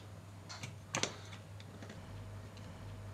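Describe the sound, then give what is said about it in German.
Faint, light mechanical clicks from a spring-loaded lever on a model, set off by pulling a thread; the lever gets the fuel flowing and hooks in place, held by a spring and red rubber. A few soft ticks, the sharpest near the middle, over a steady low hum. “Und wenn man an dem Faden oben zieht, dann kommt das Klack.”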